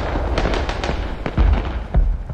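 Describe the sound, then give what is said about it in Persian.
Gunfire exchanged across the street outside an embassy: loud, irregular bursts of sharp cracks and heavier booms in quick succession. No voices. “صدای تیراندازی از اون طرف خیابون میاد. بیرون از سفارتخونه دارن از اون طرف خیابون به تبادل آتش میپردازن.”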